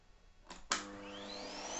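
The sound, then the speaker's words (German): A vacuum cleaner starts with a sudden burst of noise. Its motor whine climbs steadily in pitch as it spins up, then settles into a steady hum. “Oh, jetzt kommt auch noch meine Mutter mit dem Staubsauger rein.”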